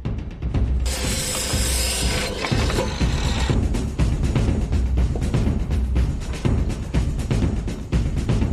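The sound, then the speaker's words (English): Rapid ratcheting clicks as a wooden board is bolted on as a rudder. Many sharp mechanical clicks follow in a steady, continuous run, with a brief harsher scraping stretch near the start. “we'll just bolt a board between the two. Right. And that's all you need is a board. A bit of board will do, will be a rudder.”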